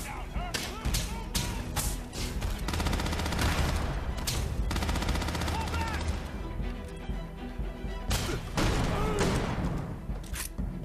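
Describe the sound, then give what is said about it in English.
Gunfire from a space game's gameplay trailer: dense bursts of rapid shots and crashing impacts. They come in loud clusters with brief lulls between them across the whole stretch. “That gun sounds good.”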